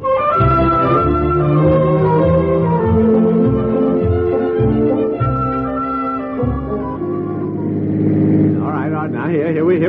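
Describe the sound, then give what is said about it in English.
A car engine drones steadily as the car is driven, loud and continuous throughout, its tone shifting near the end. “We better drive straight back and find the house you took this bed from.”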